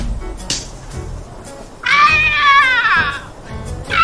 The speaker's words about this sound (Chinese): 你看，都砸着野猫了。